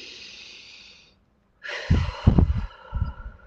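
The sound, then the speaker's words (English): Deep breath during a guided relaxation exercise: a soft, airy inhale lasting about a second, a short pause, then a louder, rougher breath with a few puffing bursts. “Take a deep breath. Breathe in.”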